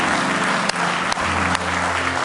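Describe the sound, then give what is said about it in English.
Congregation clapping at a church service, a steady, dense wash of hand claps with a low sustained tone beneath, broken by a few brief sharper accents. “Give him one more hand clap.”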